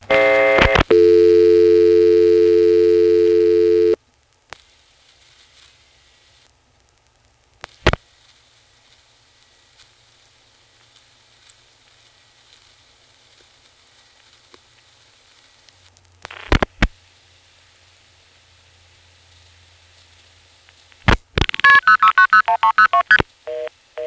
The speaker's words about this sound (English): Let's try dialing 49 to drop, and then a 2.